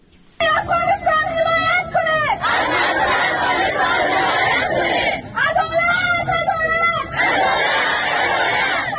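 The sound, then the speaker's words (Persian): Afghan women refugees chant in protest at a rally in Pakistan. High-pitched voices call out in unison in two loud bursts over a steady roar of crowd noise and shouting. “این صدای اعتراض زنان افغان است که پس از حاکمیت دوباره طالبان به پاکستان مهاجر شدند.”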